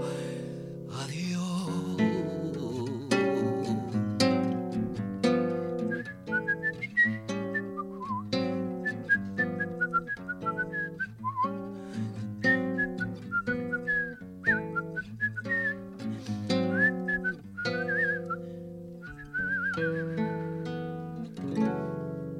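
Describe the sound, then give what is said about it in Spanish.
Melodic whistling in the old Buenos Aires street style carries the tune of a tango song, the bright, wavering whistled line riding over warm, steady lower accompaniment throughout. “Tiene hasta un silbido porteño viejo, ¿viste los porteños viejos que caminaban silbando?”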